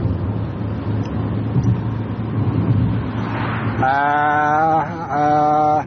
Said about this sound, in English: I can't really look now, Paul. I'm driving.